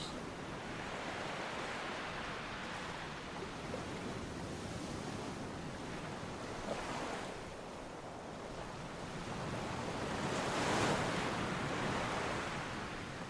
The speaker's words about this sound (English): the rush of salty sea air. Which carried them toward you in the first place.